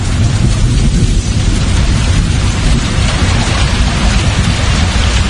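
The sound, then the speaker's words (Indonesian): Heavy rain pouring down at closing time outside a small kiosk, a loud, steady, unbroken hiss of water on surfaces that holds even throughout with no voices. “hujan mulai turun. Terpaksa aku harus menunggu hujan reda di kiosku itu.”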